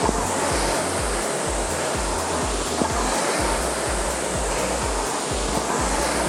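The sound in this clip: Steady whooshing rush of a rowing machine during a workout stroke at 24 strokes a minute, a loud continuous airy roar with soft low pulses running under it.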